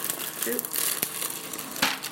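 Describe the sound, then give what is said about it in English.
Greaseproof paper holding hot baked beans crinkles as its sides are lifted with an oven cloth, a soft continuous rustle with a couple of slightly sharper crackles. “So we're using an oven cloth. And we're just going to pick up the sides of the greaseproof paper with the beans inside.”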